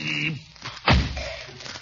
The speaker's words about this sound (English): Just press the button to open the door.